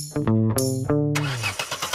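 A car engine cranks in the cold and fails to start. The starter whines and sputters in several short, loud bursts, ending in a rough noisy gust.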